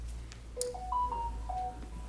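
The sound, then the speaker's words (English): Faint electronic phone ringtone going off during an adult Sunday school class: a few short melodic beeps at shifting pitches over a low steady hum. “Is that my phone?”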